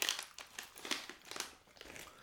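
Crunchy chewing of trail mix with raisins and nuts: a quiet run of many quick, crisp bites and crackles with a brief pause midway, no talk.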